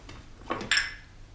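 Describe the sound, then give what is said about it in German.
Plates being changed at a table: two brief, soft clinks of dishes, the second brighter with a short ringing tone, over a quiet background. “Lass mich die Teller wechseln.”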